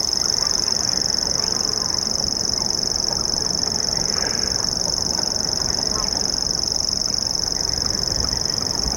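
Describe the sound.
Dusk- and night-active birds at night give a high, unbroken buzzing reel that runs steadily through the whole stretch over a low rumbling background.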